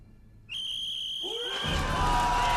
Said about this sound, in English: A Russian officer blows a whistle.